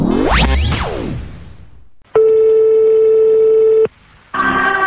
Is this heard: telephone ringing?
yes

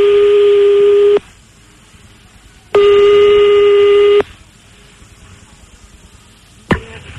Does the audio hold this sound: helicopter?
no

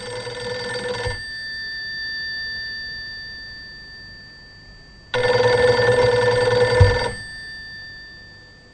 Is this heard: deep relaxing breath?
no

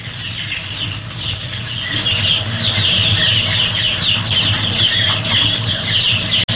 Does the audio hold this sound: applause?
no

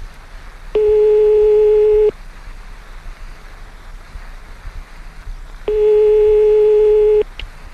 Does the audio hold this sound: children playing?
no

